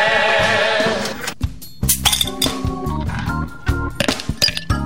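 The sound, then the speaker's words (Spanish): Ice clinks and rattles in a tall glass: after a sustained tonal opening, bright irregular clinks follow one another in uneven clusters, some sharp and loud, others lighter. “Coloca la mayor cantidad de hielo posible en un vaso de trago largo.”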